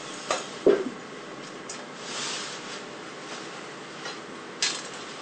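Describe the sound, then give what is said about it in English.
Soft clinks and knocks as pieces of pre-cut bread are placed into a baking pan: a few faint, separate taps, the loudest near the start, over a quiet background. “And now we're going to place the bread in the pan like this.”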